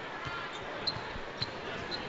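Basketball dribbled during a college game involving BYU, heard as a series of dull, low bounces repeating steadily under a constant wash of crowd noise.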